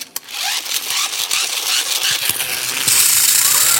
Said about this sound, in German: Oder wie Florian Silber, nee, dann lieber Bohrgeräusch. Das hört sich ungefähr so an.